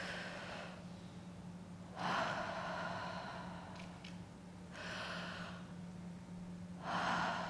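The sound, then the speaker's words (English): A group of young people breathing together in unison, heard as soft, airy whooshes that swell and fade roughly four times over a low steady hum, faint and without speech. “just breathe with me.”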